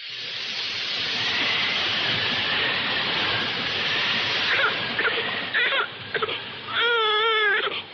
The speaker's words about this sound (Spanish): ¿Qué le pasa a la niña? Está bien. Ahora dejará de llorar.